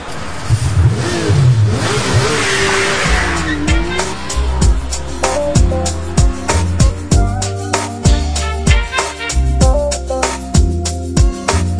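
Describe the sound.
A car engine revs hard and accelerates as it drives off through a city at night, and a loud music track with a steady thumping beat takes over as the engine continues.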